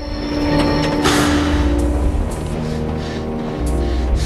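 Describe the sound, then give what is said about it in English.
A train brakes to a halt on its line, giving a loud, steady rumble with sustained tonal whining and squealing that holds through the whole stretch. “He brakes to a halt.”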